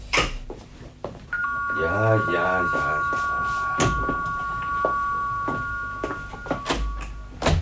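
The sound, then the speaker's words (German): A doorbell rings at a front door with a long, steady electronic two-tone ring held for about six seconds. A voice speaks briefly over its start, and scattered knocks and thumps sound around it. “Es läutet an der Tür.”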